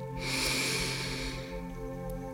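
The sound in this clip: One deep breath is drawn in, a soft, airy hiss lasting about a second and a half over faint, steady background tones.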